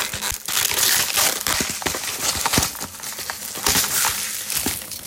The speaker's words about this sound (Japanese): まあ、ちょっと開けてみましょうかね。はい、今お湯が沸いてますけど、よいしょ。焼きそばって結構開けづらいんですよね。